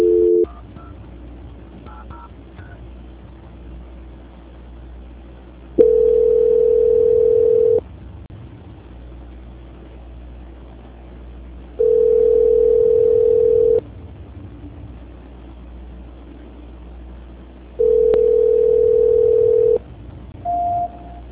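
Telephone line tone during a call transfer: a few short tones at the start, then three long steady beeps separated by pauses, with a brief beep at the end over low line hiss.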